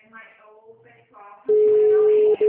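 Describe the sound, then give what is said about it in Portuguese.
Telephone ringing tone while a call to the HR department goes unanswered. A voice speaks first, then a loud steady tone sounds for almost a second, breaks briefly, and starts again for a short moment. “Estou ligando no RH, tá chamando, ninguém atende.”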